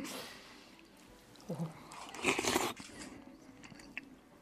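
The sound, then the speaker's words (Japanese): Someone eats food at a morning market, with soft crunchy bites and chewing that build to a louder cluster of crunches midway, then trail off into quieter mouth sounds. “それで食べてます”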